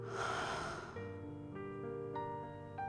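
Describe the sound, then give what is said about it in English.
A deep breath is drawn during a guided meditation, a broad airy rush lasting about a second, followed by soft, sustained musical tones with gentle chime-like notes. “Deep breath in. And hold it. Deep breath out.”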